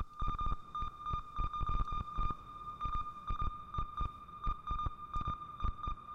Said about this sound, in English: That's coming from the sequencer, so let's crank up the tempo.